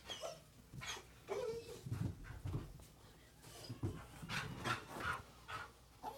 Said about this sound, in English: That's just my dog. That is not part of the movie.